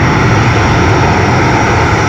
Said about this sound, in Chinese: 随着固定翼反潜巡逻机抵达任务空域